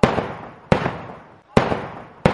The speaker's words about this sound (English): Why are you trying to kill us? Explain yourself, why are you shooting us?